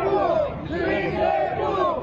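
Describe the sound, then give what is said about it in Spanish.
Loud crowd cheering and shouting, a dense mass of overlapping voices that swell and dip, greeting a figure at a public event about expanding the Altos Hornos steel company. “Le están aplaudiendo.”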